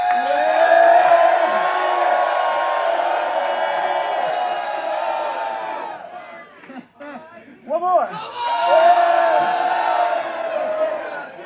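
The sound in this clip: A live audience at a taped show in Minneapolis cheers and whoops loudly. The sustained roar of shouts and yells dips briefly partway through, then swells again to full volume.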